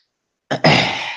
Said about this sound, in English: oh, there's that throat clearing. Unnecessary throat clearing that I'm going to try not to do.